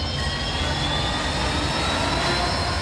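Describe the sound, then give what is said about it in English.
X-wing starfighter engines roaring in a climb: a steady, loud, jet-like roar with a bright whine on top, unbroken and unchanging throughout. “Kel stood his X-Wing on its tail and bled power from his bow shields into his thrusters.”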